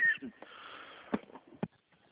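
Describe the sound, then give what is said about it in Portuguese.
Coughing from a person on a phone call: two short, harsh bursts about half a second apart, fairly faint, after a quiet stretch of low background noise, with no speech. “perdão, tô tossindo também, igual você”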